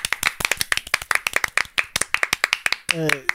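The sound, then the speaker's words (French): A few people applaud themselves at the end of a shoot: many sharp, quick claps in an uneven rhythm, ending with a brief voice. “je pense qu'on peut s'applaudir là parce que c'était quand même.”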